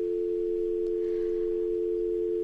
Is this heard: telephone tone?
yes